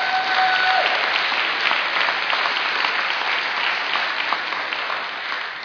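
Applause from a church audience during a worship service: steady, dense clapping that holds at an even loudness for several seconds with no talk over it.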